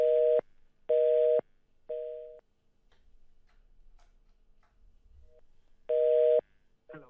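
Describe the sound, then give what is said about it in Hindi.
A busy tone plays after a listener's call cuts off on a radio phone-in: three evenly spaced mid-pitched beeps, the third slightly softer, then a quiet gap with faint low rumbling, then a fourth beep. “हाँ क्षमा चाहती हूँ, call cut हो गया”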